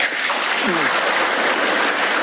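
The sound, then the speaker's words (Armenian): Parliament deputies applaud together after a statement by Kazakhstan's president. Their loud, dense clapping runs steadily throughout, and a voice is briefly heard beneath it early on. “Ղազախստանի նախագահի այս մի հայտարարությանը պատգամավորներն արձագանքեցին միահամուռ ծափահարություններով։”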